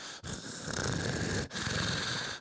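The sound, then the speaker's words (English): A voice imitates weird, heavy breathing, mimicking a male who hides quietly in a tent over his bed: loud, raspy, continuous breaths that run on steadily with two brief breaks. “it's a weird, heavy breathing”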